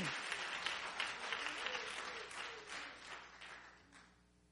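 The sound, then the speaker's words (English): A church audience applauds with hand claps: a dense, faint patter of many hands that carries on steadily and then fades away at the end. “Come on, somebody give the Lord a hand clap.”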